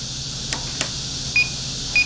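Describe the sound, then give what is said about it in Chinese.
Two short, high electronic beeps from a simulated radar warning system alarm, about half a second apart over a steady low hum, come after two soft clicks. “这就是预警系统捕捉到了我们的雷达信号，敌机开始报警”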